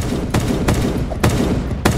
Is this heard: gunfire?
yes